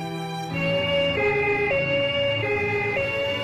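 An emergency vehicle siren wails in stepped two-tone pitch changes, loud and steady after a brief quieter start.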